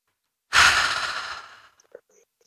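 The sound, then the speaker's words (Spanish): One deep breath out during a shoulder-relaxing breathing exercise, a loud, airy exhale that swells quickly and fades over about a second, followed by a few faint small breath sounds. “vamos a relajar los hombros un poquito y ya vamos a continuar con la charla, pero esto lo hacemos todos los días en el mismo horario. Bien. Vamos a respirar profundo.”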